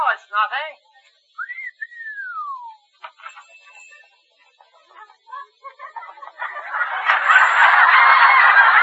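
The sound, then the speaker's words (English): A man whistles a tune: a quick warbling trill, then a long note that glides up and falls away, followed by scattered short notes and a loud, broad noisy wash near the end. “You sure whistle beautifully. How do you do it?”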